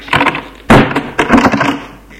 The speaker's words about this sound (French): Il referme la porte.